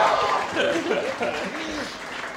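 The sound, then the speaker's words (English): A live audience cheers and applauds at the first live show of a comedy show, a steady roar of crowd noise and clapping with a voice talking over it throughout. “I am so glad you cheered because I didn't have a plan for if you didn't.”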